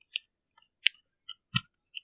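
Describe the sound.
A person grinds their teeth, making a few faint, scattered gritty clicks and scrapes separated by silence, with no talking.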